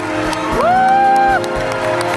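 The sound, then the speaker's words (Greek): A packed festival hall cheers and applauds in a standing ovation for Pedro Almodóvar, with a rising whoop held for about a second over steady crowd noise. “Στην κατάμεστη αίθουσα όλοι οι καλλιτέχνες τον χειροκροτούν όρθιοι.”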